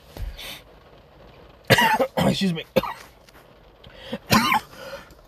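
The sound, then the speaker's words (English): Coughing from someone who choked on a chocolate chip in a Frappuccino: a faint cough, then a cluster of harsh, rasping coughs, and a final loud cough after a brief pause. “excuse me, choked on my chocolate chip for my Frappuccino.”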